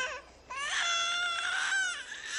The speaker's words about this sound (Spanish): ¿Qué? ¿Qué? La alarma del bebé.